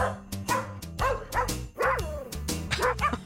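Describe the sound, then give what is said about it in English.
Dogs sing in a novelty recording of dogs and cats: many short barks and yips are set to pitched musical notes in a bouncy rhythm over a tonal backing. “Dogs and cats singing together. Just wait for the meows.”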